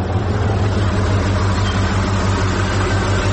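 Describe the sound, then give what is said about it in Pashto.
Lorry engine by a desert roadside: a loud, steady, deep rumble with constant low droning throughout and no clear change in level. “یوه لاړۍ خو راغله، همدا لاړۍ ته به لاس ورکم.”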